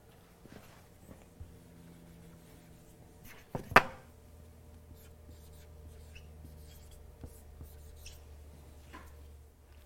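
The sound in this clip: Faint scratching of a marker or chalk drawing a shear-force diagram on a board, with soft scattered strokes and light taps and one sharper knock midway, all quiet and without talk.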